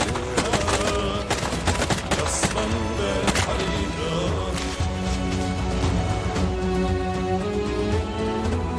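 Dense, rapid gunfire in a video game shooting match, with many sharp bursts packed closely together over a loud, continuous backdrop that runs the whole way through.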